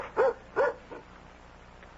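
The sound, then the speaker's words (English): A dog barks a few short, sharp times: two loud barks close together, then fainter ones after a quiet gap. “It's just the dog.”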